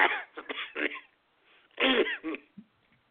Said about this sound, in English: I actually coughed there